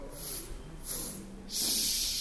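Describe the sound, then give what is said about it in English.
A choir breathes in together before singing, giving three airy, hissing inhalations. The last is longer and louder than the first two. “So can we just take in all of our air, and we're just going to go.”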